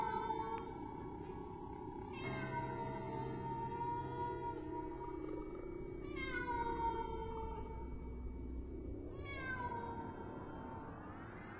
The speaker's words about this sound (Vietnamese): Thay vào đó là tiếng con mèo hoang, nó kêu lên não cả ruột.